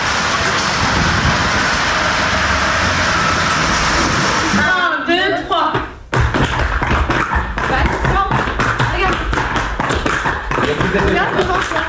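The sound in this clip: Film-trailer montage of cars and street noise: dense rumbling with tapping and thuds, a short dip in the middle, then rapid knocking and clicking, with voices mixed in.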